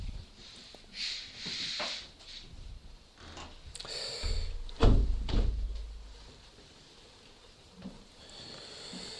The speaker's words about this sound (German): Wir können die Fenster jetzt wieder schließen.